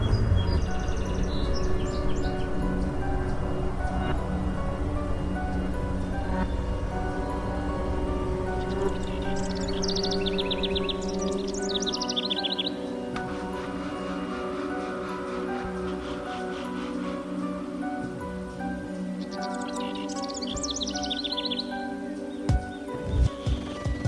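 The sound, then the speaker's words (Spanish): Birds sing at dawn in a few short bursts of high, quick chirping over a sustained tonal background. “Oí el canturreo de algunos pájaros y me estremecí.”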